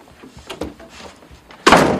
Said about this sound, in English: Shutting her door, Bianca returns to her bed and cuddles a big, stuffed teddy bear.